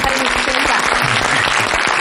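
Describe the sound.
Studio audience applause welcoming a guest onto the stage: a dense, even wash of many hands clapping that stays loud from start to finish.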